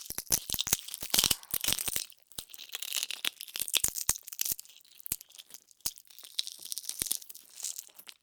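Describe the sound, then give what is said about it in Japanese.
Crisp crunching of potato chips, with many sharp, irregular cracks and crinkles that come in dense bursts at first and then turn into more scattered crackles. No talking is heard. “じゃがいもチップも。パリパリパリパリ。”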